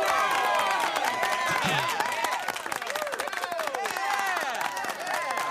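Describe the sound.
Loud crowd cheering and applause play as a sound effect triggered by a button push to congratulate a school superintendent, a dense steady wash of cheers and clapping throughout.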